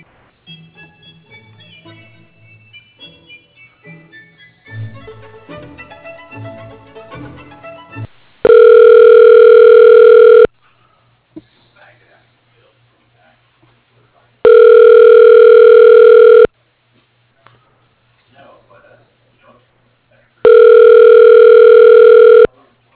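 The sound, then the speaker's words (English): Telephone line tone during a call transfer to voicemail: three loud, steady electronic tone bursts of about two seconds each, evenly spaced, following a stretch of voice and other quieter sounds. “I'm going to send you over to his voicemail just a minute.”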